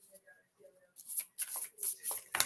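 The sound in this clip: Oracle cards spill out of a deck in a quick run of several papery flutters and slaps. The sounds follow a quiet opening and come close together as the cards tumble.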